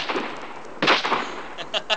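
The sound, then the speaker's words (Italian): Firearm shots during target practice at bottles in a courtyard: a broad, blasting report, followed by a few sharper, quicker cracks. “Oscar e André, che nel cortile di Palazzo Jarget, mentre si allenavano con le armi da fuoco”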